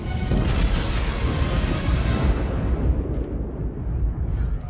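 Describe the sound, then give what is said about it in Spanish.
A deep, sustained explosion roars from the torpedo room of a Russian submarine, a fire-causing blast: dense, heavy rumble fills the whole stretch at steady loudness, with the brighter upper hiss thinning toward the end. “La segunda gran explosión es registrada por los sismógrafos diseñados para medir terremotos.”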